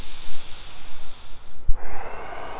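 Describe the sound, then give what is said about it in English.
A forceful exhale after completely filling the lungs: noisy, airy breath pushed out in uneven puffs, with one sharp burst of air partway through before the breath trails on. “Fill up your lungs completely. Press the air out. And continue moving that way.”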